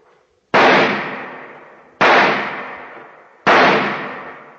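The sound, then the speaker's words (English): Pistol shots ring out at an indoor firing range in an office building basement. Three sharp, loud reports come evenly spaced about a second and a half apart, each followed by a long reverberant decay. “an FBI agent is practicing at an indoor pistol range. He is firing his last rounds as Agent Jim Taylor approaches”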